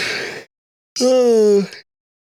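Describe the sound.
A person yawns: a brief breathy sound, then a drawn-out voiced yawn whose tone sinks slightly before it trails off.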